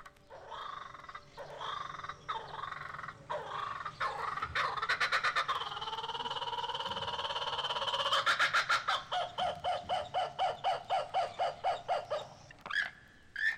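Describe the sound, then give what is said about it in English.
A laughing kookaburra, an Australian bird, calls alone, opening with rough sputtering notes. These build into a loud, rhythmic cackle of many rapid, pulsing hoots. “Australia's laughing jackass bird, the kookaburra, winds up for his call, it sounds like an old jalopy trying to start. But the call is worth waiting for. It sounds like this.”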